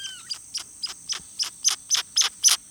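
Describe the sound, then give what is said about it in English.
Groove-billed ani calls from open, brushy habitat in the extreme southern U.S.: about ten short, high, clipped notes repeat in an even rhythm and grow louder toward the end, over a faint steady high hum. “you may have heard this jumble of sounds coming from open, brushy habitat. What you're hearing is a groove-billed ani.”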